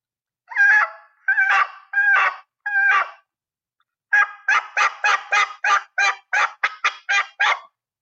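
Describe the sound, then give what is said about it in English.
Front-end turkey yelps are made on a mouth call. Four loud, raspy, evenly spaced notes are followed by a pause, then a longer, quicker run of many similar yelps. “So that's your lesson on a front end yelp.”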